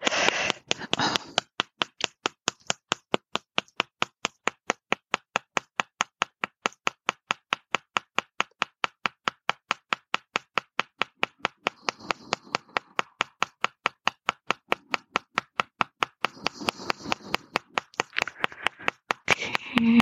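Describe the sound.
Steady fingertip tapping on the body over the ovaries: many crisp, evenly spaced taps at a quick, unchanging rhythm, moderately loud and continuing without pause from start to end.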